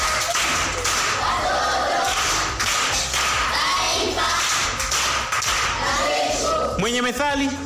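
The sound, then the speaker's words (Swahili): An audience at a primary school event applauds, a dense, steady patter of many hands clapping, with a voice speaking briefly near the end. “Makofi kwa shangazi.”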